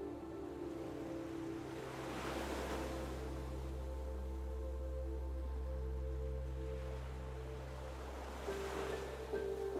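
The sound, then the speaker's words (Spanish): Ocean waves wash continuously onto a beach where sea turtles gather, a steady low surf roar with fuller swells breaking near the start and again near the end. “Y sin darte cuenta, descubres que estás en una playa en donde suelen frecuentar las tortugas marinas.”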